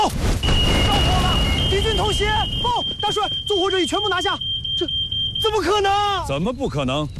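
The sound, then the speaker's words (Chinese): A standalone household smoke detector sounds one continuous, piercing high-pitched tone for about five seconds. Agitated voices shout over it, and a noisy commotion fills the opening moment. “因为我有它，独立式感烟火灾探测报警器，又叫小白盒。”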